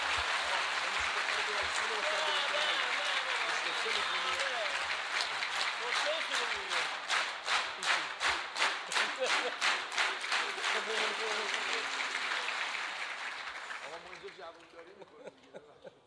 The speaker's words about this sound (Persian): حالا اگر دلتون خواست یه کف مرتبم بزنید که این شرفه.